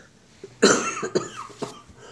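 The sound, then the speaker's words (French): A person coughing: a loud, harsh first cough followed by a couple of weaker ones, forming a short rough fit. “Vous toussez, je vous fais tousser apparemment.”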